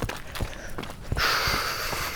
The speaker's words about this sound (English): So this is asphalt. I hate running on asphalt.